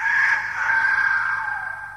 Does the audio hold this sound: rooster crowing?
yes

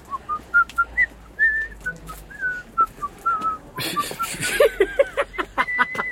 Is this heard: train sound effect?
no

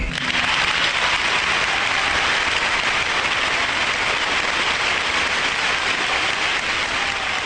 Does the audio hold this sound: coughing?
no

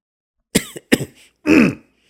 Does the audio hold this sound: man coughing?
yes

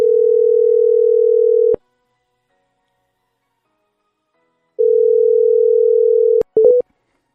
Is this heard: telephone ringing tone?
yes

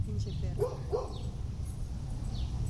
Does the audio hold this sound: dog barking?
yes

